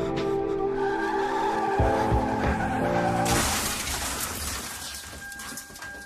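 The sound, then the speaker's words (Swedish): Tires squealing as a Mini Cooper skids out of control on an icy road, losing grip: a loud, wavering high screech with shifting tones, then a harsh broad rushing noise that gradually fades. “Bilen går inte att kontrollera. Däcken fattar inte fäste om vägen och ratten lyder inte händerna som så hårt håller”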